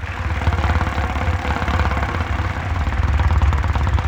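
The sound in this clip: A game show prize wheel spins with a fast, steady, loud clatter of ticks that carries on evenly for about four seconds, with no talking.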